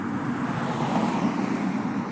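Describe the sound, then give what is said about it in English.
Road traffic gives off a steady low rumble with some wind noise, a continuous wash of moderate loudness with no distinct passing events. “I will have to sign off in a minute because of the traffic noise”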